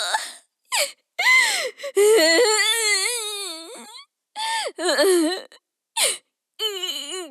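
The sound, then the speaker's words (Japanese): A girl crying, with many bursts of high, pitched wailing sobs broken by short breaths, including one long drawn-out wail near the middle. “あら、また泣いちゃった。”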